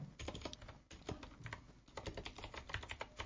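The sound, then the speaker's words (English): Typing on a computer keyboard: many quick, uneven key clicks tapping out in bursts with brief pauses between, fairly faint and with no talking. “So if we type in something like this,”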